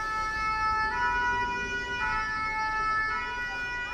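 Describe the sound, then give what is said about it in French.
A fire engine siren sounds loudly and continuously, its tones shifting roughly once a second in an alternating pattern over a low rumble. “C'est le son d'une sirène de pompier. L'alarme très très forte qui prévient les automobilistes que le camion va passer”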